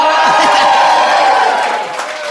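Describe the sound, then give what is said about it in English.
Loud cheering and whooping from a live audience at a bar venue at the O2, shouting as if they were an arena crowd of thousands, sustained and easing off slightly toward the end. “I think our audience make the sound of 20,000 people. So thank you so much for that. Let's try that again, shall we? 20,000”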